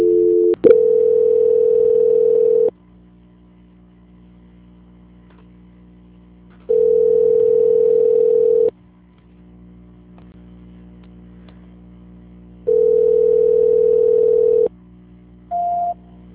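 Steady telephone tone while a call is transferred: three long, level buzzing tones of about two seconds each, separated by quiet gaps over a low hum, then a brief higher beep at the end.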